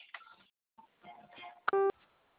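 A telephone keypad tone for the zero key: a single short, steady beep near the end, after faint muffled sounds.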